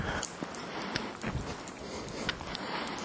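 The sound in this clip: Footsteps of a person walking at night, several irregular crunching steps rising from a constant noisy background, fairly faint and with no talking.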